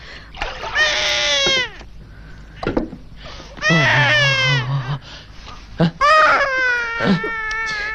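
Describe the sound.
A hungry baby cries while food is being cooked in a home, giving three loud, wailing bursts with short breaths in between and a strained, wavering pitch.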